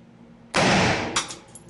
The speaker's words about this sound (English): This one's going to be a little bit louder. Now, look at the AR-15 round.